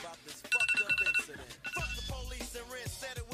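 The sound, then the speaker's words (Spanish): Telephone bell ringing with an incoming call: a short burst of rapid, high trilling pulses, followed by voices. “Eh, Espera, un segundo. Tengo una llamada.”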